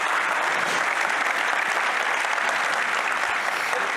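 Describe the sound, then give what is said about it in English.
Audience applause rolls on steadily at an even level throughout, a dense wash of clapping with no breaks. “How about a hearty round of applause for my buddy Wyatt?”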